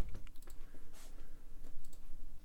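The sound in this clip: Quiet keystrokes as a web address is typed on a computer keyboard: a few scattered, irregular clicks rather than a fast stream.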